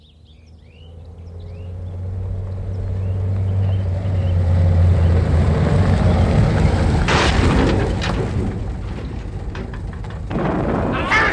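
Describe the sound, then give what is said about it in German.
A new car plunging into a gorge: a low engine drone and rumbling roar swell over several seconds, then give way to a few loud, clattering crash bursts, with no talk over them. “neuer PKW in die Schlucht. Das werden Sie doch wenigstens mitbekommen haben, liebe Hörer.”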